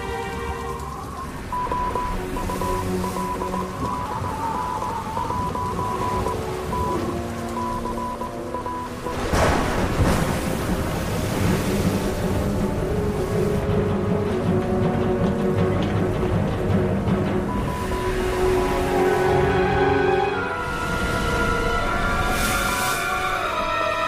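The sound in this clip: Typhoon wind and waves at sea roar in a dense, steady rush of churning water and gusting air. The surge swells louder around the middle and holds, with faint sustained tones humming underneath throughout.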